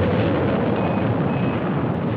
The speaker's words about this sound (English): T-minus 10, 9, 8, 7, 6, 5, 4. We've gone for main engine start. We have main engine start.